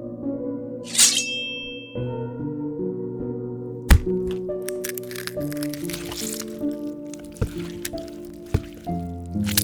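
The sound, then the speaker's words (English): Axe blow striking a head in an audio drama: a sharp, wet squishing impact partway through, followed by smaller cracks and squelches over sustained tonal music. “They were clearly dead in the first whack of the axe.”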